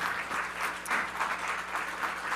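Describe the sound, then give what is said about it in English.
A church audience claps their hands together in a steady, dense wash of applause from many people. The clapping stays loud and even throughout, with no gaps. “Would y'all just clap your hands for Jesus today?”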